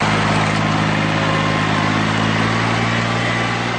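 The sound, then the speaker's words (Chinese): A rice transplanter engine roars in the thousand-mu Nanniwan paddy fields during planting season, a steady, continuous mechanical drone with a buzzing tone and no break in level, with no voices over it. “走进南泥湾千亩稻田，插秧机在田间轰鸣穿梭，一排排嫩绿的秧苗被整齐地插入泥土。”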